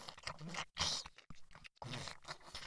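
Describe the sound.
Crunchy chewing and biting while eating ice cream, a few short bursts of crisp crunching separated by brief silent gaps, fairly quiet.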